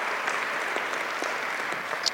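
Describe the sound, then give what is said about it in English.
Steady, dense applause from a crowd honoring first responders (firefighters, sheriffs, paramedics) at a public government event, a continuous wash of many hands clapping at even loudness throughout. “let's give a round of applause to our first responders, folks who take care of us, men and women in blue”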